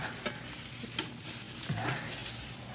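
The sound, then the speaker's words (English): Leafy bush branches being stuffed into a stove give a dense, steady rustling and crackling of leaves and twigs, with a few sharper snaps along the way. “Hey, yeah, plenty on these bushes right outside the window here. Now, I'll just stuff them in the stove.”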